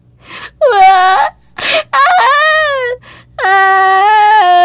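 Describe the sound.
A five-year-old girl cries in fear in a dark room after the lights go out, with three long, wavering high-pitched wails broken by sharp gasping breaths.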